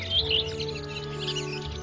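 Thrushes give brief, high chirps early on, set over a steady low drone that continues throughout.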